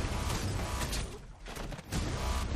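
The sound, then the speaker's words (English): Sniper gunfire in a trailer for a new Dragon Tattoo story: dense, loud bursts of blasts and booms that run almost throughout, with a short lull near the middle. “I gotta say that I'm guessing that's part of the climax, that sniper. So I'm interested to see how that turns out. A new Dragon Tattoo story.”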